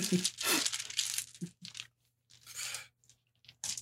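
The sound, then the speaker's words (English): Rattling clatter of many gaming dice, among them d20s, d6s and a d12, being scooped up and gathered together during a tabletop role-playing session, heard as several bursts of crunchy clicking and rustling separated by short pauses. “I gotta grab all my dice. So many dice.”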